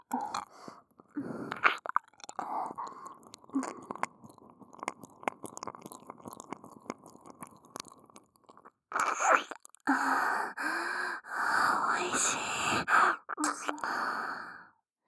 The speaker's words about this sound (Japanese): お耳の奥までぐっぽり舐めちゃうんだから。